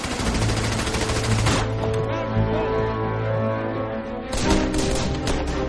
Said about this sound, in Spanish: Soldados estadounidenses del 27º Batallón de Infantería Blindada cruzan el puente Ludendorff bajo una intensa lluvia de disparos de las ametralladoras y la artillería alemana.